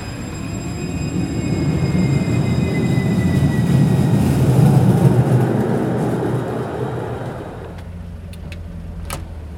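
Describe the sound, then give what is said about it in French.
A tram rolls along rails with a steady, loud rumble and a high whining hum. The sound swells and then eases off, and a few sharp clicks follow near the end. “Je vais au collège et je vais prendre le tram pour y aller.”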